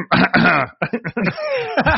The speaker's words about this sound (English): I got to clear my throat to try to speak as clearly as possible.